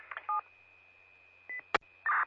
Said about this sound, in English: It's just my cell phone.